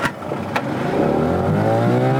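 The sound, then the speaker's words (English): The old engine of a small, wooden, brightly painted fishing boat starting up: a rough, noisy start settles into a loud, steady droning hum that climbs in pitch as it revs. “Soriba Kamara has trouble starting up the old engine on his small wooden, brightly painted boat he calls Faith.”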